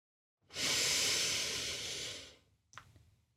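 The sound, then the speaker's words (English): A deep breath drawn in slowly: a steady, airy hiss of inhalation lasts about two seconds and gradually fades, followed by a brief, shorter breath sound at the end. “And I just want you to take a deep breath in. Go as deep, deep in as you can.”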